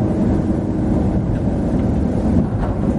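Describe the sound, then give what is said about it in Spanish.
Steady low rumble of a van on the move, a dense, continuous roar with no clear separate jolts or impacts, holding an even loudness throughout. “Una rueda delantera se hunde en un bache. La furgoneta da bandazos descontrolados.”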